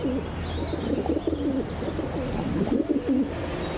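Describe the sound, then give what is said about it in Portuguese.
A pigeon gives its special courtship coo, a sound produced deep in the body with the throat acting as an amplifier. It comes as a low, rolling, repeated burbling that runs steadily through the whole stretch over a constant background hiss. “O cortejo também é acompanhado por um arrulho especial,”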